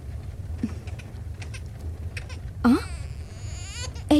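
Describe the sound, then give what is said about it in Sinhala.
A baby cries in short, rising wails, with one loud cry partway through and another starting at the very end, over a steady low rumbling background. “බබා මායෙන් අඩන්න ගත්තේ.”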